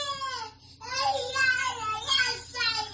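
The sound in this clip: Little girl crying, a high, wavering child's voice in drawn-out wailing bursts with a short pause near the start, moderately loud and continuous.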